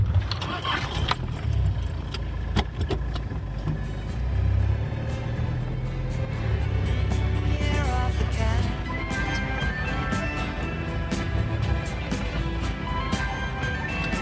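A car engine starts and the vehicle drives off on the way back to a house, giving a steady low rumble throughout with scattered clicks and rattles above it.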